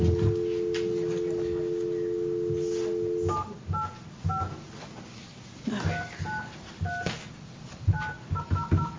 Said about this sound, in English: Oops, I dialed a one.